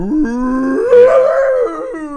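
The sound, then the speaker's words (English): A human voice imitates a husky howling as it comes out of anesthesia: one long, wavering, harmonic howl that climbs in pitch, holds, then sinks again, loud and alone. “there was a husky coming out of anesthesia. Oh, wow. Making the craziest noises.”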